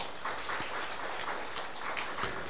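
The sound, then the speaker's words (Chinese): Congregation applause during a church service, a soft, even patter of many hands clapping that carries on steadily throughout. “我们给掌声给神好吗？”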